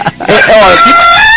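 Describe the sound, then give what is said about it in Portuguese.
A mechanical rooster sound effect crows once, loud and harmonic, with a warbling pitch that climbs through the call. “Fábio Gomes fala assim, cadê o galo mecânico que desapareceu?”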